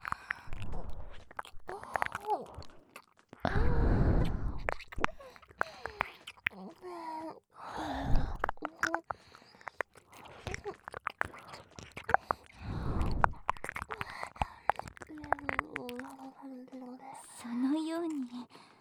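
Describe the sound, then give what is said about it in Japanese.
Wet tongue kissing in close-up, with smacking, slurping mouth noises in repeated bursts, interspersed with whispering and a soft, breathy voice. “本日の気持ちいい霊気交換ベロチューをしてもよろしいでしょうか”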